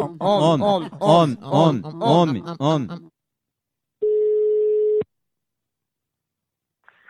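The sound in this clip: Ringback tone on a phone call being placed: a voice speaks for about three seconds, then after a pause a single steady, mid-pitched tone sounds for about a second, followed by near silence.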